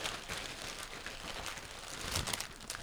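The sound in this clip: Crinkling and crackling of a plastic candy wrapper being opened right into the microphone: a continuous, dense rustle that grows slightly louder toward the end.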